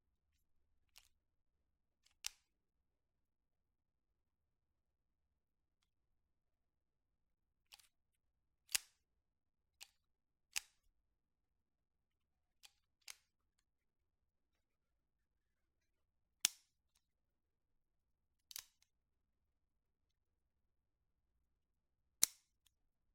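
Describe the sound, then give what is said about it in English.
Press check on a loaded pistol, the slide pulled back on a chambered round: many faint, sharp metallic clicks spaced irregularly across quiet pauses. “This is press checking, except there's actually a round this time, if it sounds different.”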